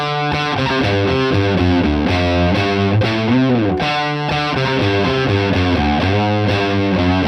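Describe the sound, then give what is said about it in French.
Heavily distorted electric guitar plays a riff in drop D tuning on the low E and A strings, with rapid back-and-forth picking and choppy, staccato notes, loud and steady throughout. “on passe la corde de Mi en Ré. Je vais faire un riff sur les cordes de Mi et La, donc qui va donner ça.”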